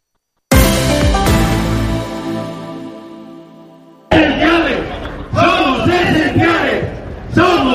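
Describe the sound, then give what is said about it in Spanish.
A protest crowd of bakers and pastry makers gathered in front of the Government Delegation in Valencia shouts chants in loud rhythmic bursts, after a sustained musical chord that fades away. “Lo que están escuchando es el gremio de panaderos y pasteleros de Valencia, que esta mañana se han concentrado en frente de la delegación del Gobierno”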